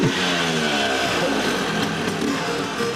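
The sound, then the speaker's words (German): Old two-stroke Vespa scooter engines rattling in a loud, continuous buzzing drone with a dense, steady putter and no talk over it. “So wie das Knattern der alten Zweitaktmotoren.”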